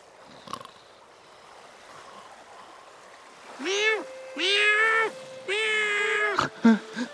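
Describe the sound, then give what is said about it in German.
A cat meows aboard a small boat at sea, a few drawn-out tonal meows in succession, moderately loud over a faint watery background. “Oh, Katze hat mich geweckt. Miau!”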